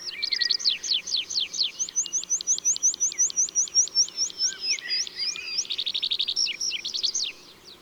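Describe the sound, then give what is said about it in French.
A bird sings a long, carrying song strophe while gliding down on spread wings and tail: a quick, evenly paced series of high chirping notes, ending in a denser buzzy trill before it stops. “Et il se laisse redescendre en vol plané, les ailes et la queue étalées, en chantant une strophe plus longue et qui s'entend de loin.”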